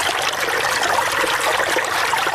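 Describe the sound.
Irrigation water flows over a six-jerib wheat field in a steady, loud rushing and trickling wash that stays even throughout, with no voices.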